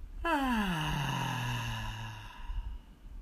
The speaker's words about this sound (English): Pushing any stale air out. Deep breath in and out.